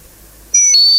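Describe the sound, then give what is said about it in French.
Electronic beeps sound as a telephone number is dialled: a sudden, high, pure tone after near silence, then shifting to a slightly lower tone that holds steady and loud. “Je compose le numéro, madame.”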